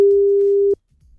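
A phone call's ringing tone: one steady, clear, mid-pitched tone lasting about three quarters of a second, then cutting off into near silence with only faint low rumble.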